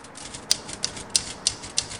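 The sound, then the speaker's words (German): A voice imitates a typewriter with five sharp, evenly spaced key clicks, each carrying a bright metallic edge, over a steady background hiss. “Könnten Sie bitte aufhören, eine Schreibmaschine zu sein? Das irritiert mich.”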